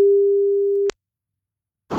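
Telephone line tone while placing an outgoing call: one steady mid-pitched tone holds for about a second, then cuts off into silence, and a short burst of noise starts near the end.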